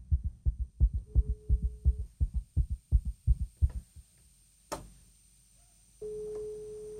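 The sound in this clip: A telephone rings out during a live call to a ticket winner: a steady single-pitch ringback tone sounds twice, about five seconds apart. The first comes over thumping rhythmic beats; the second comes alone after a sharp click.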